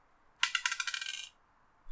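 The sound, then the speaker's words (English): A tiny six-sided die rolled: a rapid, bright rattle of clicks that bounces along for about a second and then dies away, heard alone in quiet. “So I'm gonna roll the D6 and I'm gonna just go down the list.”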